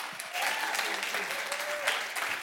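Audience applause welcoming a pastor at a New Life Manitou church gathering: dense, steady clapping that holds at an even level throughout, with no voices on top.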